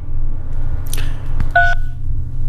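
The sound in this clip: A single short telephone keypad tone sounds while someone works through a voicemail greeting menu. It rings out clearly over a steady low hum, with a couple of faint clicks just before it.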